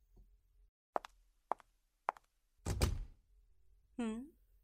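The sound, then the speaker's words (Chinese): A door being shut with a heavy thud, preceded by a few soft, evenly spaced knocks and followed by a brief vocal murmur from a person. “我为什么要把门关上？嗯，因为我要确保没有人会打扰到我们。”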